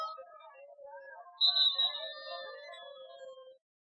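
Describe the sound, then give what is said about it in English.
Referee's whistle at a basketball game: one short, shrill blast that stands out briefly over quieter, sustained tones. “And we're going to have a whistle.”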